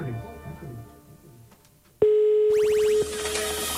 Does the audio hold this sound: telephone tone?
yes